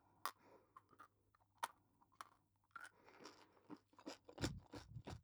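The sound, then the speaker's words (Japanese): Chewing gum being chewed during a break: faint, wet clicking and smacking mouth sounds in an irregular rhythm, many small crunchy bursts against near silence. “ガム。これはね、なんか休憩中に甘いものとかを食べると口の中が気持ち悪くなっちゃうので食べるんですよ、これをね。”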